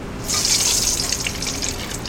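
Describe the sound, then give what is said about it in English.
Black walnut oil, cooked with walnuts until brown, is poured into a mixing bowl. The pour starts abruptly and continues as a steady, hissy trickle of liquid for about two seconds. “Okay, just pouring that into a mixing bowl.”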